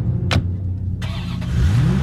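A Corvette sports car engine revs. A brief sharp noise burst comes first, then the engine noise starts up and rises in pitch as it revs toward the end.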